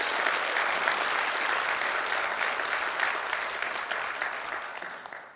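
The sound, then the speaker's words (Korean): Audience applause at a political speech in a city hall: steady, dense clapping from a crowd for about five seconds, tapering slightly at the end. “박수 한번 칠까요?”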